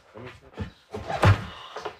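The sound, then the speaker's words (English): A trap door hatch to a basement, set in a kitchen floor, is opened with a few muffled knocks and scrapes followed by a louder heavy thunk, then a fainter knock. “we've got the hatch open.”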